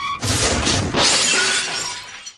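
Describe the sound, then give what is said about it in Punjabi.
A loud crash with shattering, crunching glass from a motorbike collision on a road in heavy rain, a dense burst of breaking debris that holds for about two seconds before cutting off abruptly. “इस accident की आवाज बहुत तेज हुई सी”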